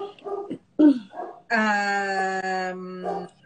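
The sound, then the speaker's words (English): Dogs whining: a few short, yelping whimpers, then one long, steady, tonal whine lasting over a second, followed by a brief softer whimper. “Sorry for my dogs, guys.”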